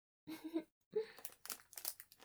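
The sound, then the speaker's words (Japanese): Crisp crunches from a hard Japanese rice cracker (senbei) being bitten and chewed, several sharp irregular bursts after a short stretch of voice. “久々にこういうしっかりしたおせんべい食べるかもしれない。”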